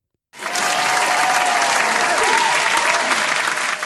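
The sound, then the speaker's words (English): A crowd breaks into loud applause to welcome a writer as a guest, starting abruptly after a short silence and then holding as a thick, steady roar of clapping. “Please help me welcome Sumiko Salson.”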